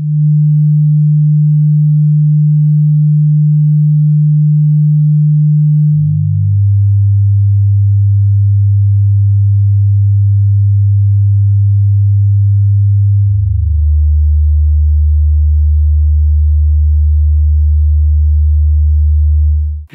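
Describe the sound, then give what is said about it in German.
Low sine test tones step down in pitch through three long, steady notes, each held for several seconds at an even loudness with no pause between them. “Die tiefen Töne von 200 bis 75 Hertz.”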